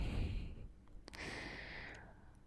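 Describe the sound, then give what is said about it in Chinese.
Low, panting breaths from a teacher: soft, airy exhalations and sighs, faint and close, with a brief sharper intake of breath partway through. “老师低低的喘息。”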